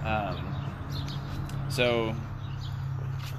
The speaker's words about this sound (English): we're outside that. With nature. I hope you can hear the birds singing.